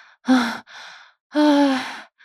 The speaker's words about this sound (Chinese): 小娟儿累得直喘气儿